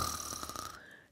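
A person snores peacefully in sleep: one long, rasping, steady snore that fades out, followed by a brief sharp sound at the very end.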